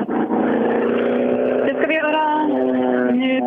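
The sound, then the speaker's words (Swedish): An Appendix K class rally car passes on the first special stage, its engine droning loudly with a steady, buzzing tone. A few quick shifts in pitch near the middle suggest gear changes as it goes by. “passerade precis här Olof Engelbrektsson som då var sista bil i Appendix K-klassen”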